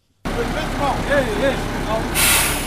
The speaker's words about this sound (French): Ceci est le bruit d'un camion qui est en train d'aider à mettre en place la canalisation d'eau potable captée dans le marais d'Onyakijima